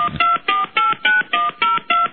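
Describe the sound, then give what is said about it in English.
Telephone keypad tones beep in a rapid, evenly spaced run, each short tone cleanly separated from the next, with no voices. “Please dial the number of the person you're calling.”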